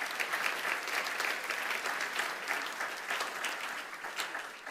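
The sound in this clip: An audience applauds to thank people for the work they have done, with dense, even clapping that holds steady throughout and eases off slightly at the end.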